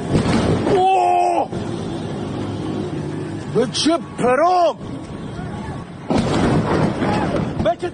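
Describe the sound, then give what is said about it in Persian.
Roar of a fighter jet followed by bombing in Bandar Abbas: a constant heavy rumble broken by a few loud, blasting bursts, with a man's voice speaking and crying out over the din. “این صدای مرد جوانی است از بندر عباس که در اینستاگرام از گرما و بیبرقی میگفت و ناگهان صدای جنگنده آمد و بعد بمباران.”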